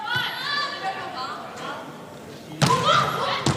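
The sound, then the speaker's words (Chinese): A sharp ball impact as a volleyball serve scores a direct ace, standing out suddenly from ongoing talk and crowd murmur, with louder crowd noise continuing after the hit. “好发球啊！ 赵雨山发球直接得分。”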